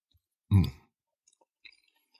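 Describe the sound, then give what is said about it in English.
Chewing sounds while eating pecan pie: one crisp, moist bite stands out, followed by a few faint clicks and smacks of the mouth in near silence. “It's pecan pie. All right, let's eat these.”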